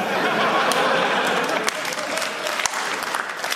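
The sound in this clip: A comedy audience breaks into dense, steady applause, meant as a slow hand clap, with a few louder single claps standing out from the continuous wash of clapping and light crowd chatter.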